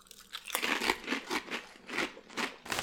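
Someone bites into thick, rigid potato chips with a sweet, spicy seasoning, making a series of sharp, rhythmic crunches that come in quick bursts at a fairly steady pace.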